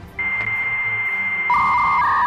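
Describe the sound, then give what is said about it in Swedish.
A dial-up modem connecting. A steady, piercing electronic tone holds, then a lower, buzzing, warbling band of tones joins partway through, loud and without voices. “Dial-up modemet.”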